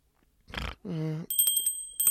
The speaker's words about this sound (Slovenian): kaj bi moral delati, če bi bil tvoja budilka? Zvoniti in me zbuditi.